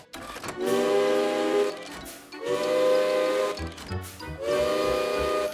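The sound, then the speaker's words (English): An alarm clock made from an old railway engine's steam whistles goes off in three loud, shrill blasts. Each is a sustained chord-like whistle with a breathy steam hiss, and short gaps separate them. “Ruth made an alarm clock using steam whistles from an old railway engine. When the alarm goes off, it sounds like this.”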